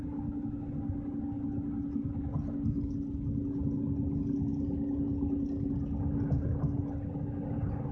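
A car driving with a wobbly tire, heard as a steady, loud low engine and road drone that holds evenly throughout without clear breaks. No one speaks.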